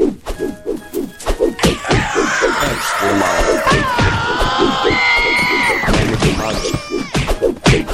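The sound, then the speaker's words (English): Punches land in a video game, a fast run of thuds and crashes mixed with busy game audio, sweeping tones and a few sharp bursts, loud and continuous throughout. “the Megaton Punch means that you can punch really, really far. Like that.”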